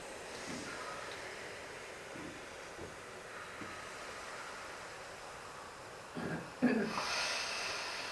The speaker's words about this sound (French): Je recommence encore une fois ce grand expire.